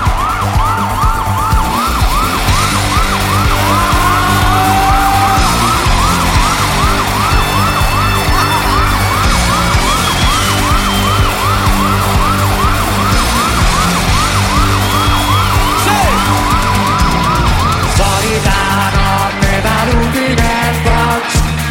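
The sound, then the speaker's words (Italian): Police sirens wail loudly and continuously for about eighteen seconds, with rapid, repeated up-and-down pitch sweeps, then cut off near the end. “C'è la polizia in giro, io. Sirene, sirene! Vuol dire che è successo qualcosa!”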